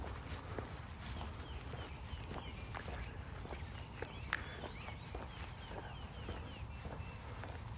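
Footsteps of a person walking outdoors, soft regular steps over a steady low rumble of background noise.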